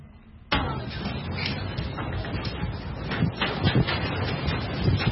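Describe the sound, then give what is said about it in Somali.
Strong wind blowing outside a bush house at a camp for displaced people in Somalia's Lower Shabelle region. It starts abruptly as a loud, continuous roar buffeting the microphone, with gusty surges throughout. “dabayl xooggan ayaa halkan dhabanaysa.”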